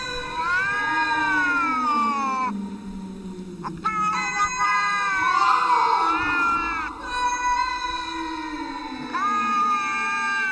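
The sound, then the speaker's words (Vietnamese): A cat growls from its throat in drawn-out, loud yowling cries with wavering pitch, continuing almost without a break across the whole stretch. “Nhưng con mèo đó cứ đứng mãi ở chỗ cũ mà không chịu đi khỏi, chỉ không ngừng mà phát ra tiếng kêu gầm gừ từ trong cổ họng.”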